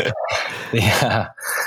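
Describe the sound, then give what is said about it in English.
A puppy growls and whines while chewing on a Nike sneaker. The rough, busy growling is loud and comes in short, uneven bursts with a brief dip near the end. “So my little puppy's just going crazy in the background. Can you hear that growling noise? She's got one of my Nikes.”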